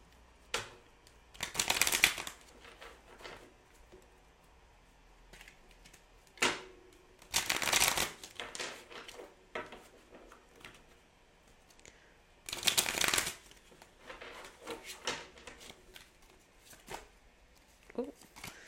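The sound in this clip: Tarot cards being shuffled, with three loud papery riffle bursts separated by softer rustles and taps as the deck is handled.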